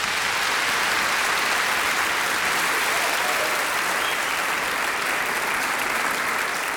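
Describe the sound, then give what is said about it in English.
Audience applause welcomes author Bill Bryson onto the stage at the Perth Writers Festival in 2005: dense, steady clapping that holds at an even, full level from start to end, with no voices rising above it. “So please put your hands together and welcome to the stage, Bill Bryson.”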